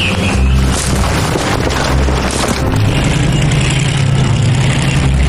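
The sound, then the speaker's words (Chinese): Tank engines running as the tanks set out, a loud, continuous low rumble with heavy booming and a steady mechanical drone throughout. “唐三强的坦克出动，向双安镇日军临时阵地迂回前进，准备从侧后方发起攻击。”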